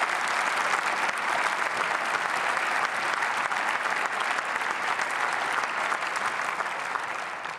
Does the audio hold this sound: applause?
yes